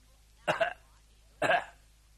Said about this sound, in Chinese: 外头有人咳嗽